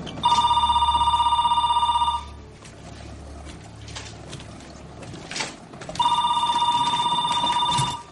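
A telephone ringing in two long, bright electronic trills separated by a pause of several seconds, with faint quiet shuffling in between.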